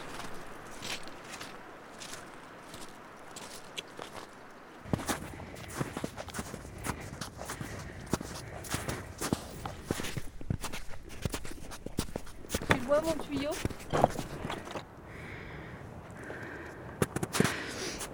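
Footsteps crunch along a mountain path near a refuge, heading toward the edge of a glacier: many soft, irregular steps, quiet at first, then a denser, louder run of footfalls with scattered sharper clicks.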